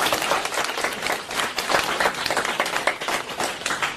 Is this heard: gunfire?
no